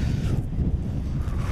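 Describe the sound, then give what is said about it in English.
Gusty wind buffets a microphone outdoors, producing a continuous low, rumbling roar with uneven surges throughout. “Oh, my God. The wind.”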